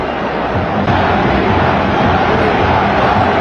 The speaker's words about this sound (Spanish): Y ahí está la impresionante reacción del público.